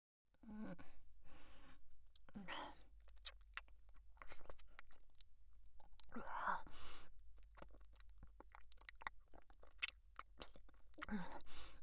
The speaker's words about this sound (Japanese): 私のご飯なのに、あなたの方が食べてるし。